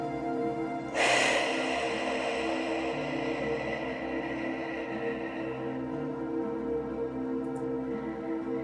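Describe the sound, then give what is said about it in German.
A deep exhale through an open mouth: a soft, breathy rush that starts after about a second and slowly fades over several seconds, above a low steady hum. “Jetzt halte den Atem für vier Atemzüge. Und durch geöffneten Mund ganz tief ausatmen.”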